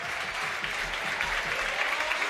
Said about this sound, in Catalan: Aplaudiments per Florin Andone.